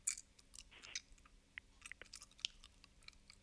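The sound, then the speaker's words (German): Faint wet clicks and small smacking mouth sounds come from someone working a stuck piece of Bifi sausage out of their teeth and dental brace, an irregular scatter of tiny ticks with no talk. “Leon, ich habe so ein Stück Bifi im, im Zahn. Ja, kannst rausholen. Mache ich auch gerade.”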